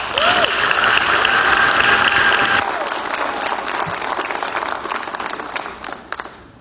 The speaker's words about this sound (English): So if you would, please put your hands together as we welcome Reverend Jimmy Bratcher.